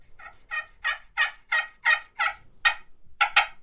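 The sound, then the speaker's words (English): Sharp, raspy turkey yelps from a hand-operated turkey call imitate dueling hens for hunting. A rapid series of many evenly spaced, loud notes repeats without talk, with two tightly paired notes at the end. “so to do dueling hens, I might do a set of yelps and”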